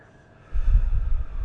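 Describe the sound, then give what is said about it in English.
A breath drawn in through the nose and exhaled during a laughter exercise: a single low, breathy rush of air that starts abruptly and holds steady to the end, with no talking. “Breathe in through your nose and exhale.”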